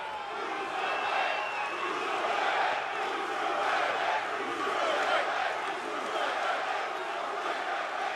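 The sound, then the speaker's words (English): A wrestling crowd cheers throughout a match, a sustained, even roar of many voices shouting and chanting without any clear break. “It seems like everybody is cheering for the bruiserweight.”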